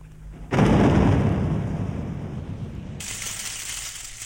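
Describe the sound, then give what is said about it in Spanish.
A thunderstorm with heavy rain: a sudden loud, low rumble of thunder breaks in and slowly fades, and a brighter, steady hiss of rain joins toward the end. “la lluvia arreció y tuvo que marcharse desafiando la tormenta”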